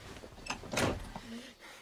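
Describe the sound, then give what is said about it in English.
A door being shut: a single broad thud lands midway, surrounded by softer shuffling and faint incidental sounds. “Out, I say! And shut the door.”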